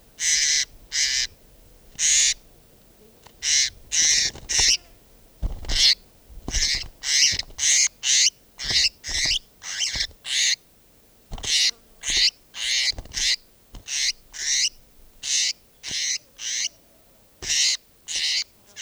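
Owl-like bird calls repeat many times in short, loud bursts with an uneven rhythm. The calls sound fairly sharp and high-pitched, with no talking.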